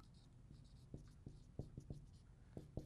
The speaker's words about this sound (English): So maybe I'll just write here, we must desire earnestly